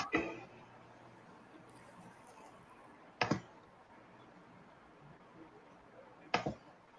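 A computer mouse gives three sharp, isolated clicks spaced roughly three seconds apart, each brief and crisp against a very quiet background.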